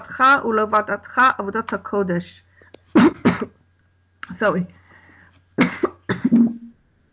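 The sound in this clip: Someone clears their throat and coughs in several harsh, separate bursts with short quiet pauses between them. The bursts are fairly loud.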